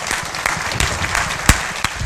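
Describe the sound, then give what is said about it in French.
Applause fills a church hall as a group claps steadily and loudly, with a dense, even patter and a few sharper individual claps standing out, and no one speaking. “Une bonne main d'applaudissement.”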